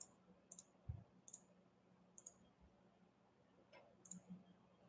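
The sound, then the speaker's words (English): A computer mouse clicks: several faint, sharp clicks, mostly in quick pairs, spaced irregularly across a quiet background. “I'm trying to click the end button.”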